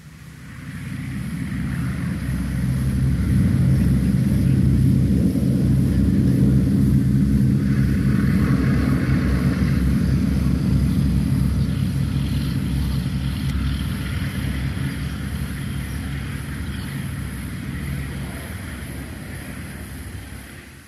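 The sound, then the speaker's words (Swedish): A Boeing B-17G Flying Fortress bomber takes off with a loud, steady propeller-engine roar and deep droning rumble that swells over the first few seconds, then holds for about twenty seconds. “Sally B, eller som hon mera formellt heter, Boeing B-17G Flying Fortress. Vi börjar med en start.”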